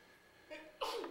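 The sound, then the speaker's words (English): A single loud, sharp sneeze bursts out near the end, following a softer breathy lead-in, with no talk over it. “God bless you.”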